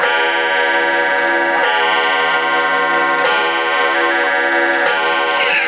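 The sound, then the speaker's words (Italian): A clock with a macabre feel ticks steadily and evenly over a continuous droning tone, loud and narrow-band as if heard over a CB radio link, with no voices. “che macabro questo orologio.”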